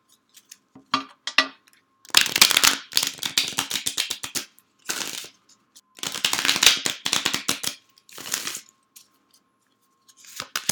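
Tarot cards are shuffled in several quick riffling bursts of crisp, papery flutter, separated by short silent pauses, with no voices.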